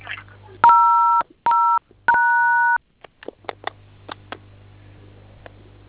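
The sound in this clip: Telephone keypad dialing tones: three sustained two-note beeps in a row, followed by several soft, irregular clicks over a low steady hum.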